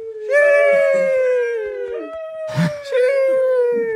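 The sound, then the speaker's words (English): A dog howls in long, high, wavering tones, holding one drawn-out note, then breaking briefly before launching into a second sustained howl. “My dog does not like that.”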